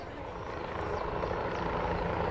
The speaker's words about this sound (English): A helicopter flies down towards the hangar.